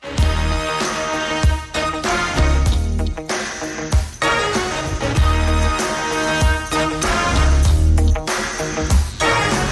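A pop-rock song played from a special-edition vinyl record: loud full-band music with a punchy, steady drum beat, deep bass and bright layered instruments, with no voices.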